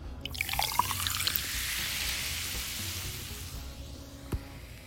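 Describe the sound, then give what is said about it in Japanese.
Soda pouring over ice into a glass of Cointreau and lemon juice for a highball: a steady, fizzing hiss of liquid, with a few small clicks near the start and one sharper tick near the end. “氷を避けるようにして、今入っているコンコアントローとレモンジュースが、この勢いで混ざるように入れていきます。”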